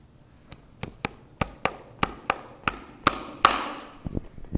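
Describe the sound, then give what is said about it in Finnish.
A hammer drives horseshoe nails into the hoof of a harness-racing gelding. Many sharp, ringing metallic taps come in a fairly even rhythm, some closer together, and each decays quickly. No voices are heard. “Vauhtiteppo ei ole moksiskaan tämä Ruuna tässä, mutta mua kyllä hirvittää, että eikö toi ota kipeää, kun tuollaisen muutaman sentin naulan takoo tuonne rustoon”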